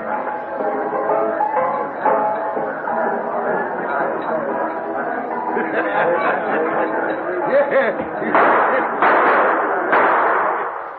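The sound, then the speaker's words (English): Gunshots in a mining town as prospectors arrive with news of a gold strike: a few sharp cracks near the end, heard over continuous lively chatter and raised voices. “What's all the shooting about?”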